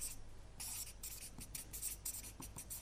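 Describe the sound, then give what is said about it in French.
Hand writing: faint, scratchy strokes of a pen or marker come in short, uneven bursts with small pauses between them, quiet and alone. “Je vais l'écrire parce que j'ai oublié de l'écrire.”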